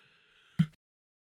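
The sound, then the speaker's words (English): A single sneeze, short and abrupt, bursts out after a brief tonal build-up and cuts straight to silence. “Christmas sneeze. Did I get to the mute my mic button in time? I sure hope so. Sorry for the weird eyeballs as I could feel that sneeze coming on.”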